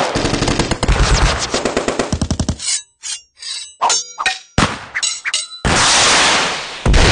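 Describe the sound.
Video game weapons fire: a rapid machine-gun burst, then several separate shots with metallic clangs, and finally a sustained, harsh roaring blast.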